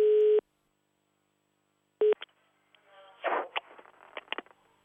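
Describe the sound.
Telephone line tones as a caller rings a local resident during a radio call: a short tone, a long silence, a second brief tone, then a faint voice answering on the line among a few small clicks.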